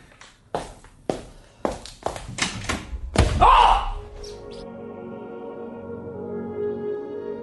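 A door closes at an office, shutting off a side room: a few soft thuds like footsteps lead into one heavier thump with a brief rattle, followed by a low, steady hum.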